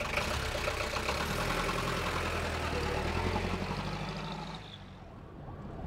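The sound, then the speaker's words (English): A taxi cab's engine idles with a steady low rumble and mid-range hum, holding constant before easing slightly softer toward the end. “Hurry up. The cab is here. The cab? What's that? The cab. It's a taxi.”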